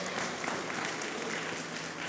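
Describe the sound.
Applause from a church audience at the close of a Christian prayer, a dense, steady wash of many hands clapping that holds at an even level for the whole clip.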